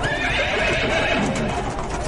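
Horses neigh over clattering hooves as an army of warriors, elephants and chariots fills a city, a dense, continuous and loud din with no pause.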